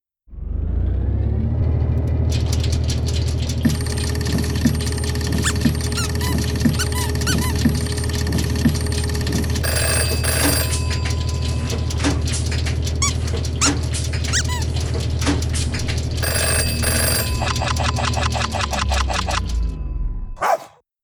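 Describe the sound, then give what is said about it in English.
Random number generator sound effect: a loud, continuous whirring and squeaking electronic texture over a low rumble, running for about twenty seconds before stopping abruptly. “So let's run the random number generator.”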